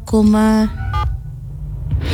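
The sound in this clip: Telephone tones sound while a colleague is being called: a long, steady electronic beep, then a shorter one after a pause, over low background rumble.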